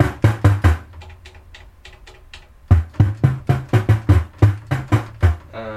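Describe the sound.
Synthesized percussion hits with a short, snappy open-and-shut envelope, made on a monosynth: a few loud punchy strikes, a run of quieter ones, then many more loud hits in a quick, even rhythm.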